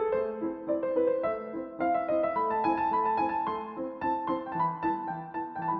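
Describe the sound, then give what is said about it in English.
Mozart's Rondo alla Turca is played on solo piano, with quick, ornamented melodic runs over a bass line. It is moderately soft, and there is no talk. “If you can play that on piano, can't you, Nick? Mozart's Rondo alla Turca is this one.”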